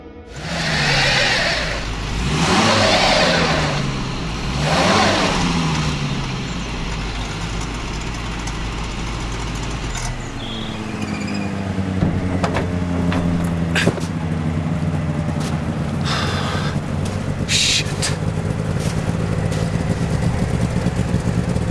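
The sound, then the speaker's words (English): A snowmobile engine starts up and revs in three rough surges, then settles into a steady, buzzing drone that climbs in pitch as the machine pulls away. “His snowmobile is still outside. I can take that. Have you driven one before?”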